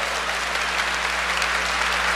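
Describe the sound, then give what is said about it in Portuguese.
A church audience applauds during a Portuguese-language service, a thick, even wash of many hands clapping at once, steady in level, with a low electrical hum beneath it. “nós não podemos, meu irmão, pode aplaudir então, esperar menos do Espírito Santo.”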